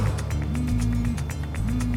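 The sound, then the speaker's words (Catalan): Ford car accelerating hard in first gear along a wet street: a continuous low engine rumble with tonal hums that step up and down, under a rough, noisy wash. “Posa la primera i accelera a fons. Ella somriu amb els ulls humits i es posa el cinturó mentre el Ford s'endinsa colejant en un carrer de blocs humits.”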